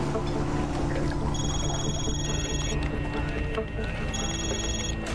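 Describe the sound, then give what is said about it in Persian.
A telephone rings in a naval command office: two long high-pitched electronic ring bursts sound over a busy, noisy background with talk. “امیر تلفن با شما کار داره.”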